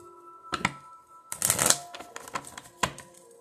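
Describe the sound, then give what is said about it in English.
Oracle cards being shuffled: a few crisp riffling, rustling bursts with papery flutters and clicks, one longer and louder flurry in the middle, and no voices. “like I said, y'all, the Sacred Lust card just popped out.”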